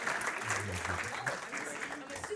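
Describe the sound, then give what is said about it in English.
Applause from an audience for a high school group's performance, a steady crowd clapping with voices mixed in beneath it throughout. “Give everyone a round of applause. Nice job, guys.”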